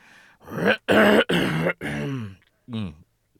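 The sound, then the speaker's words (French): A man clears his throat with a few loud, rasping bursts and then a short voiced hum, each separated by brief pauses. “Après avoir respiré très fort, il s'éclaircit la gorge.”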